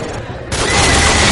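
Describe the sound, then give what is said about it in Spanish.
Gunfire from a video game scene in which armed men open fire on civilians at an airport boarding gate: a dense, noisy burst of shots that swells and grows louder partway through. “Así gritan los civiles de un aeropuerto cuando de repente cuatro hombres armados irrumpen a tiros contra ellos mientras esperan en la puerta de embarque.”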